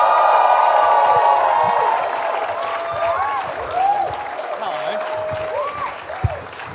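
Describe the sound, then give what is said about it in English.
Loud audience applause and cheering welcome a comedian onto a stage; dense clapping with whoops and calls from the crowd gradually eases a little in volume. “Can you please put your hands together and welcome Hamish Blake?”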